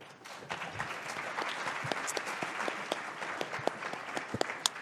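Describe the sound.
Audience applause welcomes a panel at a talk on corporate restructuring, RSAs and DIP loans: dense, steady clapping from many hands that holds fairly even throughout, with a few sharper claps standing out.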